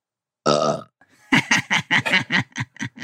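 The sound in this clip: A single long, deep, throaty burp is followed after a short pause by a run of rapid, evenly spaced laughing bursts, all loud and alone with no talk.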